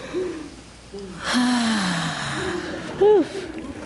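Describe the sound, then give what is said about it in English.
A group takes a deep breath together: a broad, airy inhale and exhale lasting about a second, with soft voiced tones around it and a short hum-like sound near the end. “let's breathe.”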